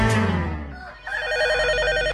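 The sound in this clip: A telephone ringing with a warbling electronic trill that starts partway in, right after a fading tone, then repeats steadily and loudly to the end.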